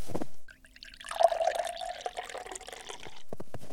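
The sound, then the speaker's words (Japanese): Hot water poured into flour for pizza dough, 300 g of flour with 200 cc of water: a soft, trickling liquid sound that lasts a couple of seconds and is moderately faint. “さてと、小麦粉 300g とお湯 200cc を混ぜて。”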